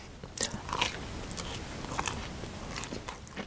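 Faint biting and chewing of a salty, sakura-flavored snack made with cherry-blossom leaves. A few soft, crisp crunches rise over a steady low hiss.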